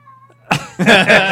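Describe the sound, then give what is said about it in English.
A cat meows loudly in a harsh, drawn-out call that comes in two strong bursts after a quiet opening, with no talk over it. “do you hear that thing? That's my cat. Listen.”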